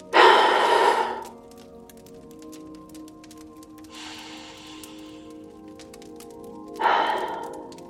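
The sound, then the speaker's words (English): Three slow deep breaths taken at the start of a guided session, each a soft breathy rush of air: the first long and strong, the second faint, the third stronger again, with quiet pauses between and no talk. “we are going to, as we do each episode, begin with three deep breaths.”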